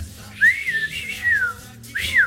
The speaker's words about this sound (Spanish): Silbar, apenas, mira.